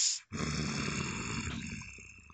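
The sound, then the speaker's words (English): A voice imitating a creature's low, rumbling, rhythmic breathing during a tabletop role-playing game: a short hissing breath, then a sustained growly rumble that slowly fades away. “She hears a rather low rumbling kind of rhythmic breathing in and out,”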